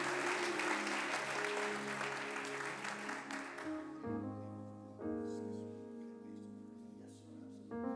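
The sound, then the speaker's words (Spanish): Church audience gives the Lord a loud round of applause during a bilingual service, the clapping running over sustained keyboard chords for about four seconds before fading and leaving the music alone. “¿Me puedes dar un fuerte aplauso al Señor?”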